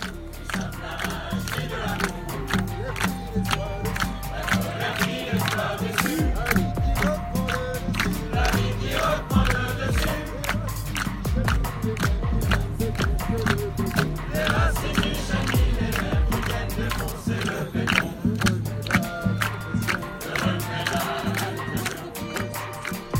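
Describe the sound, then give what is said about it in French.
Crowd noise from an Extinction Rebellion gathering at Parc de la Villette, where the movement held a day of review and plans after a week of action: a steady, dense blend of many mingling voices that stays loud throughout. “c'était un extrait sonore de la présence hier au parc de la Villette de ce groupe Extinction Rébellion où le mouvement organisait une journée bilan et perspective, après une semaine d'action.”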